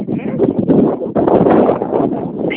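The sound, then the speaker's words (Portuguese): Wind blowing into a phone microphone during a call, a muffled, rumbling buffeting that stays loud and steady for a couple of seconds, dipping once in the middle. “Mas só um minutinho, que eu acho que estava ventando, eu não escutei.”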